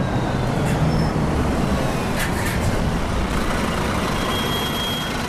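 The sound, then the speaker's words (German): A diesel bus gives off a loud, steady engine rumble with a broad, gritty drone that holds at an even level throughout. “Also es ist schon ein Unterschied zu einem Dieselbus, den können wir ja uns auch nochmal ganz kurz anhören als Beispiel, wie das klingt.”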